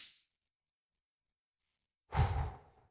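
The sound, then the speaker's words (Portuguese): A deep breath taken during a guided breathing exercise: a faint breath fades at the start, then after a pause of silence comes a loud, airy rush of breath lasting under a second. “Vamos respirar, então? Mais uma, gente. Respirar bem fundo, hein?”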